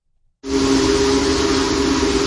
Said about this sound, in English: Union Pacific Big Boy Steam Locomotive 4014 draws a crowd wherever it goes, thanks to its sheer size.